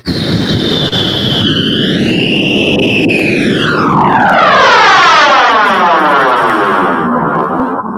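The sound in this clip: An airplane passes low near an active runway with a loud, sustained engine roar, its whining tones sliding downward in pitch as it goes by, with no talk.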